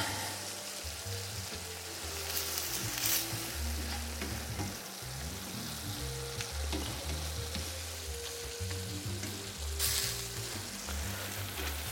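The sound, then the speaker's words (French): Sizzling and scraping as tomato sauce with a generous spoonful of tomato paste is stirred in a hot pan, a steady frying crackle with the soft rasp of the spoon running throughout, no voices. “qu'on va compléter avec le concentré de tomate. En mettant une belle cuillère à soupe, bien généreuse aussi. On mélange bien.”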